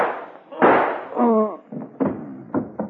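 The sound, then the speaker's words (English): Pistol gunshots in a radio drama: a sharp burst rings out, a short cry follows, then several more quick, loud bangs come in uneven succession. “So you still have my gun. Yes, and I'm going to use it on Homer now.”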